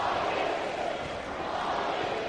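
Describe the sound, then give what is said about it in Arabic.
Azerbaijani football fans cheer in a stadium, a continuous, evenly pitched crowd roar that holds steady without distinct peaks. “تشجيع ياتي الان من جانب الجماهير الاذربيجانيه.”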